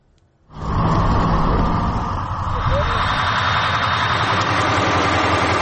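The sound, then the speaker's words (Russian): A Ukrainian armed forces BM-21 Grad multiple rocket launcher truck's engine cuts in abruptly after a brief silence and idles with a steady, loud, dense rumble and hum. “Зараз боевая машина БМ-21 «Град» Збройних сил України отримала ціль по скупченню російських військ і буде відпрацьовувати зараз прямо на Воряця.”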